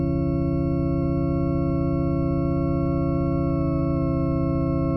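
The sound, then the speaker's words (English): A synthesized organ tone, shaped with drawbar-like harmonic controls, sustains evenly for about five seconds. It is a rich, steady chord of stacked harmonics with a faint pulsing texture and no change in loudness. “So now you've got the makings of an organ. Yeah. Like, these are almost like drawbars, in a sense. We're shaping the organ sound.”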